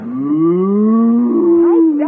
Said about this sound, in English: Back the cow into the closet.